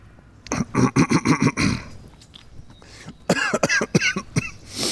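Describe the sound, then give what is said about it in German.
Coughing after choking on something: a rapid run of harsh coughs, followed by a few shorter voiced throat sounds. “Entschuldigung, jetzt habe ich mich verschluckt.”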